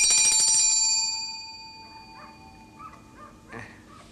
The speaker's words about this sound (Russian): Граф садится за стол и берет колокольчик в руки. Звонит в него.